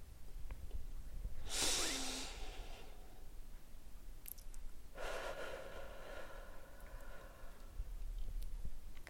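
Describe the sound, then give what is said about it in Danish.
A slow, deep breath in and out: a hissing inhale, then after a pause a longer, softer exhale, with no talking. “Det kan du gøre ved at lukke øjnene og tage en dyb ind- og udånding.”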